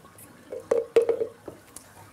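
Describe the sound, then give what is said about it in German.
Gruel flowing into a seal pup's throat and being swallowed: a few soft, wet squishing gulps and drips, two sharper ones near the middle, with faint quieter liquid sounds after. “Der Brei fließt in den Schlund und wird geschluckt.”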